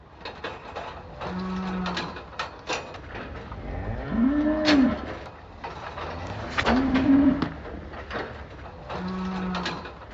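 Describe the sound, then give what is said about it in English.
Cows mooing on a family-owned farm with robotic milking: a few long, low moos rise above a steady background of farm noise, with some sharp, brief clatters between them. “That's the sound of cows from Harcroft Acres”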